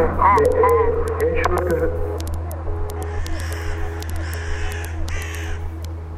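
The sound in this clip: A crow caws harshly a few times early on over a steady low hum, followed by fainter, higher scattered calls.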